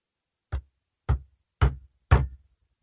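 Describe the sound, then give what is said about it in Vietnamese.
Timid knocking on a door: four evenly spaced, dull knocks, each short and moderately loud, with silence between them. “Có tiếng gõ cửa rụt rè.”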